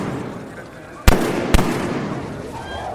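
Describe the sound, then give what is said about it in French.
Gunshots ring out at a crowded basilica square near a bronze door: two sharp, loud bangs about half a second apart over a low background murmur. “trois coups de feu et une clameur d'effroi qui s'élève au-dessus de la foule.”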